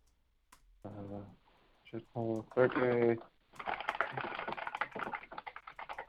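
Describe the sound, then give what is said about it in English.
Typing on a computer keyboard produces many rapid, uneven clicks and clatters. A voice speaks briefly just before the keystrokes begin. “I'll type that in the channel.”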